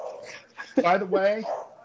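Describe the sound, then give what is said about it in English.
A dog gives a brief, drawn-out whining bark that stands out mid-clip while people talk around it. “This fucking dog will not shut up.”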